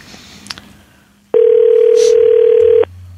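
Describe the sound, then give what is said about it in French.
A telephone dial tone sounds before a number is dialed: one loud, steady, unbroken tone that holds for about a second and a half, then cuts off, after a few faint clicks. “On va composer tout de suite.”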